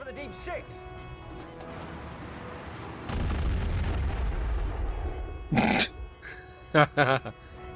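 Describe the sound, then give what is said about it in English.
Heavy gun firing from a ship in a giant-shark-and-octopus monster film: a loud booming blast swells into a long rumble, then a few sharp bursts follow, with people talking over it. “Okay, the gun's firing forwards.”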